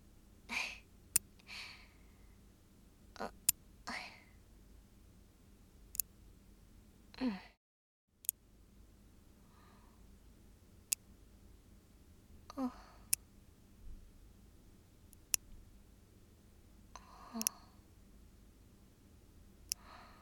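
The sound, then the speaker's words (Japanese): Fingernails being clipped: many crisp, sharp snips spaced a few seconds apart, with soft breaths between them and a brief moment of silence. “どうした？爪を切る私にでも見惚れたか？”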